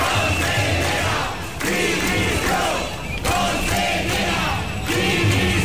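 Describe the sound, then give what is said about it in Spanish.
A large crowd of teachers and families shouts and chants at a public-education teachers' strike demonstration in Valencia, a loud sustained roar rising and falling in repeated surges of yelling. “Y esto es sonido de esta tarde en Valencia.”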